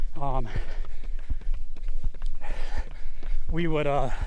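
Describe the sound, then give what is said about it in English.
Running footsteps of people on a one-mile loop around a lake, a steady series of soft thuds under talking voices. “So right now we are running on the loop around this lake.”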